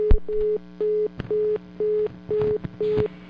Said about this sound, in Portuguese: Ok, mais um problema aí. Caiu a ligação e a gente vai retornar daqui a pouco